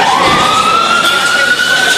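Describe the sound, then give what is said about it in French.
Ambulance siren wailing through Beirut, a loud single tone sliding slowly upward over a constant rushing background. “Les sirènes des ambulances hurlent à travers Beyrouth.”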